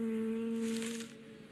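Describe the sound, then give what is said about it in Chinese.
Honeybees heavy with pollen fly back to their hive, producing a faint, steady, low buzzing hum with a soft airy hiss above it. The hum eases off slightly near the end. “外出的小蜜蜂飞回巢穴，满载的花粉降低了它们的飞行速度。”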